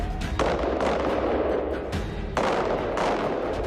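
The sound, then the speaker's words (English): Gunfire rings out during police firearms training: a few loud shots, each followed by a long, noisy, rumbling tail that blends into the next. “We need to ensure that we are accurate in our shooting and that we can deal with any threats proportionately.”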